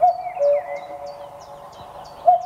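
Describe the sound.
A common cuckoo calls with a few soft, low hooting notes spaced apart, while fainter, higher chirps repeat quietly throughout.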